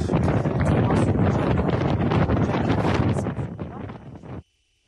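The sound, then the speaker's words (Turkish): Wind blowing outdoors in New York buffets the microphone with loud, continuous rushing gusts, then cuts off abruptly near the end. “evet, New York'ta rüzgarlı bir hava var.”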